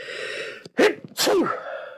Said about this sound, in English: Wow, sneezed.